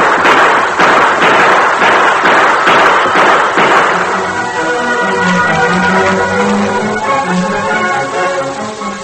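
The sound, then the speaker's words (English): Gunshots in a Western shootout ring out as a rapid string of sharp, loud cracking reports over the first few seconds. They then stop, and a sustained tonal sound takes over. “Gun him down, Tar. Oh, you won't get me. Shoot him, Tar.”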